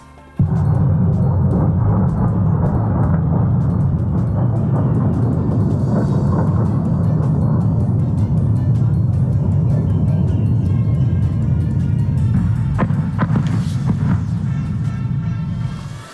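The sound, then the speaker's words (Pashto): Warplanes attacking near Damascus, Syria, produce a continuous loud low roar with deep rumbling throughout and a few sharper bursts near the end. “دا د هغو الوتکو ژغو چې رویټرز اژانس ثبت د دوی ژغونه ثبت کړي دي چې تقریبا نیم ساعت مخکې د سوریې مرکز دمشق ته نږدې حملې کولې.”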